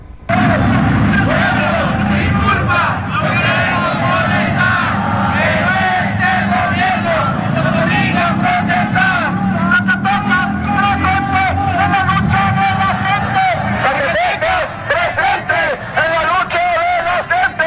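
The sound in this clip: Chanting and shouting from a crowd of protesting teachers marching on Tlalpan: loud, continuous massed voices with rhythmic cries that never let up.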